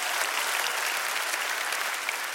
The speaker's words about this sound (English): Come on, clap your hands. They're getting married.